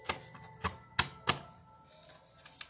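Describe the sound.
A deck of oracle jar cards is shuffled. A few sharp, dry taps and slaps, with a soft rustle between them, come at an uneven pace and are fairly quiet.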